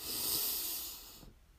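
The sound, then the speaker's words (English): A deep breath drawn in through the nose makes one long, breathy hiss that holds steady for about a second, then thins and fades away. “We'll breathe in through our nose. We'll hold for a moment and then we'll relax and release with a loud sigh. So breathe in”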